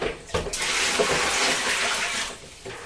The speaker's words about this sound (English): We've got another water wheel here, haven't we?